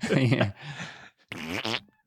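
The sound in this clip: A voice imitates a juicy fart with a wet, buzzing raspberry, and a brief stretch of voice follows.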